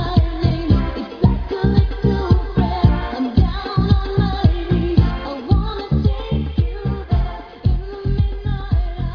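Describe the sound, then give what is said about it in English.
A pop song plays forwards at full volume with a steady, driving beat of strong pulses, dense layered instrumentation above it and no talking. “Played forwards, the song sounds like this.”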